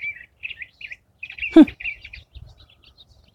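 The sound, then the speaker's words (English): A curved-bill thrasher sings its spring mating song as a series of short, high chirps and warbled whistles with gaps between phrases. One louder, sharper note stands out midway. “trying to figure out what kind of bird that is. That might be the curved-bill thrasher. That might be the spring mating song. It's a little bit different.”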